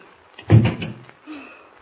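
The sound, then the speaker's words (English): A door is swung shut and locked in a hurry, making one solid thud followed by a faint, short rattle. “Close the door quickly and lock it, will you?”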